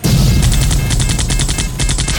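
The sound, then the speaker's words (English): Gunfire during a firefight: rapid bursts of automatic shots repeat in a loud, steady rhythm, with a dense low rumble underneath throughout. “Sniper on the roof. Take him out. On my go. Now. Nice work, Adley. Incoming. We're taking fire. Light him up.”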